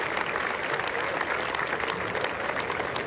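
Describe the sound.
Audience applause after a live stage performance: a dense, even patter of many clapping hands, moderately loud and steady throughout, with no single voice standing out.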